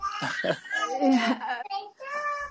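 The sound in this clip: A three-year-old child babbles in Idlib in a high, lively voice, stringing short syllables together with brief pauses between bursts.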